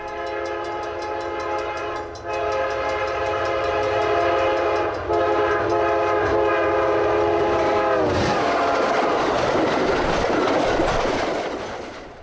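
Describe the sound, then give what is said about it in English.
A train slowing down on the rails gives a constant rolling rumble under a long, steady tonal whine that holds for several seconds before fading into broader rushing track noise. “The train has slowed down a bit at this moment.”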